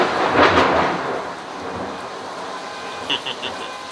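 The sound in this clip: A thunderstorm in California in late December, with a low rumble of thunder at the start that fades into a steady hiss of falling rain.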